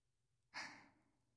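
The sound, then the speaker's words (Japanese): A single close breath sounds right at the microphone, a soft airy exhale that swells quickly and then tapers away against near silence. “私の息遣いが聞こえてきて、本当に近くで話しかけられてるみたいですよね。”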